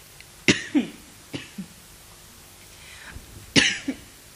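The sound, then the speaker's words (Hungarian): Several harsh coughs, loud and abrupt, some coming in quick pairs, with quiet gaps between the bursts. “Köhögjön nyugodtan legalább.”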